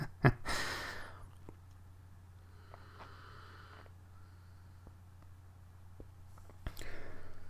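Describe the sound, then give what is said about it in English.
A deep breath: a loud, airy intake at the start, quiet for several seconds, then another breathy rush near the end. “Taking a breath here.”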